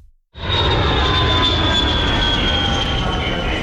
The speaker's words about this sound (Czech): Poletíte z letiště Václava Havla Praha?